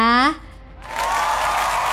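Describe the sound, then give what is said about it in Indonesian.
Audience applause that breaks in after a brief spoken voice, then settles into a steady, dense clapping wash that lasts to the end. “Kita kasih tepuk tangan dulu ya.”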